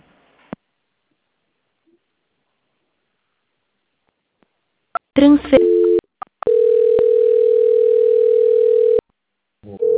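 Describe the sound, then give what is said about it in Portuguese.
Telephone line tones during a call transfer to a bank's audit department: a click, a short stepped tone, then a steady tone of about two and a half seconds, with a voice starting at the end. “peço que a senhora não desligue a ligação, eu vou encaminhá-la para a auditoria, tá? Só um instante.”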